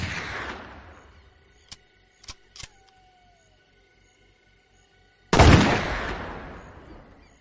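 Two loud shotgun blasts fired into the ground, each a sharp, heavy boom with a long fading tail. A few short, sharp clicks fall between them.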